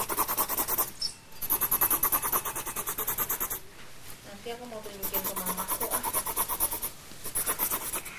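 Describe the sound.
Coloring in a drawing gives rapid, even back-and-forth scratching strokes in a steady rhythm, broken by short pauses, with a brief voice partway through.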